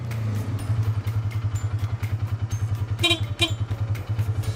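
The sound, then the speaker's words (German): Low, steady engine chug from a farmer's vehicle driven through forest and fields, a rapid even pulsing at a moderate level that runs throughout. “Mein Fahrzeug gehört einer Bäuerin, die damit regelmäßig durch Wald und Felder fährt.”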